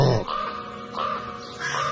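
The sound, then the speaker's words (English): A raven gives deep, rough, croaking calls, a few in close succession, loud and harsh with a throaty tone and no talk over them. “a raven's above their head and it gives that incredible deep, I can't even do it, it's a...”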